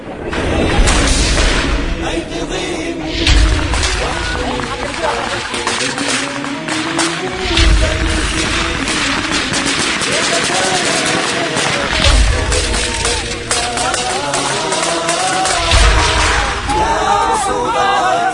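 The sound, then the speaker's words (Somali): An RPG launcher fires and heavy gunfire follows during an assault on enemy defensive positions. Several deep booms recur amid dense sharp cracks, and voices can be heard beneath the clamour. “ku bilaabanayaa weerarka mujaahidiinta oo lagu dhaafuray qoriga RPG-ga kadibna waxaa xigay taqaddumka ciidanka mujaahidiinta oo difaacyada cadawga ku hoobanayo iyo rasaas kulul”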